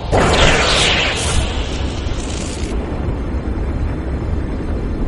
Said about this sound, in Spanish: Por la noche, cuando todos dormían con sueño inquieto, el volcán explotó con furia.